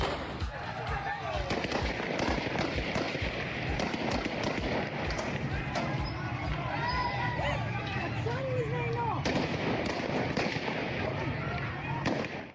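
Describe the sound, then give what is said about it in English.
A crowd at a peaceful women's rights demonstration in Afghanistan, with many sharp bangs like gunfire cutting through a dense, continuous din of voices and movement. “That was the sound of a peaceful demonstration held a couple of weeks ago in Afghanistan”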